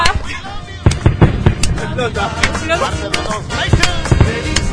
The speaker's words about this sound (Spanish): Suenan los fuegos artificiales.